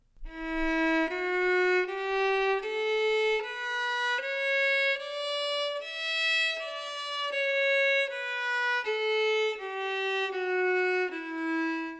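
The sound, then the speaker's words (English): A melody in the Dorian scale, played as a steady line of sustained single notes that step upward and then back down, loud and clear with no talking. “One of these, the Dorian scale, sounds like this.”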